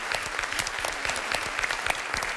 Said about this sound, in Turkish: Alkışlıyorum sizi.